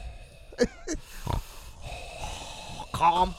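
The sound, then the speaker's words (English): A voice imitates heavy breathing, with wheezing, snorting inhales and exhales in uneven bursts of moderate loudness. “Orton was also doing what I could only describe as Tony Soprano breathing while he was removing the paint from from Hardy's face.”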